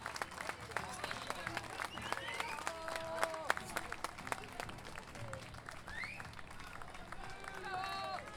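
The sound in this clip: An audience applauds at a payadores gathering in San José de Maipo, with steady, fairly faint clapping throughout and voices and pitched sounds mixed in.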